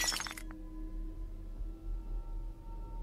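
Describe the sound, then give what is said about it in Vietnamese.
A bowl is dropped while dishes are washed at a well in a yard. It lands with a sharp, bright crash and shattering burst in the first half second and a brief clink after, then only a low steady hum remains. “Bất chợt bà lỡ tay làm rơi cái bát xuống vỡ đánh xoảng một cái.”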